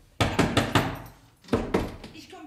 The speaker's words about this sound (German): Gott sei Dank, jetzt ist die Tür zu.